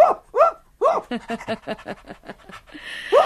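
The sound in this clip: A dog barks a few sharp, arching times, with a quick run of short pulsed sounds between the barks.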